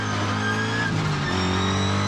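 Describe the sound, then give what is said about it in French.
Engine of a car without ABS, driven in third gear and sliding through a drift onto dirt, a steady, loud harmonic drone that holds fairly even throughout with only a slight shift partway. “un peu gros bruit de boîte, hop, j'accélère. La caisse part en drift direct.”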